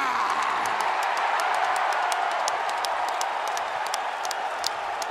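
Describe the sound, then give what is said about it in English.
A wrestling crowd at WrestleMania cheers and applauds, a dense, steady roar of voices with sharp claps scattered throughout, loud and unbroken for the whole stretch. “Fans back at wrestling shows. It felt good to see you at WrestleMania. It's always good to see and hear a little bit of that”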